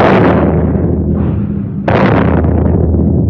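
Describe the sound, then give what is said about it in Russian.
Artillery shelling of a battery at Port Arthur, a 1954 drama effect: a loud, sustained booming rumble, with a fresh blast about midway that decays again. “Японцы начали обстрел батареи.”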